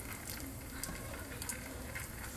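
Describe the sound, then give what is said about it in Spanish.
Steady sizzling and soft scraping as fideo noodles are stirred while they brown in a frying pan, a continuous crackling hiss with no talk. “Aquí voy meneando. Voy revolviendo.”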